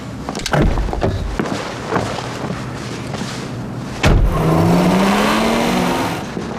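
A sports car engine revs hard, a loud whine climbing steadily in pitch after a few dull thumps and a sharp onset midway, then holding strong before easing at the end.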